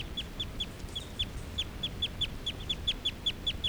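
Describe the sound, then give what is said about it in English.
A male bird calls while right next to another bird's cage, giving a fast run of many short, high chirps in a steady rhythm. The calls are faint over a low background hiss. “This is a call of a male who's right next to bird 378. On 378's cage.”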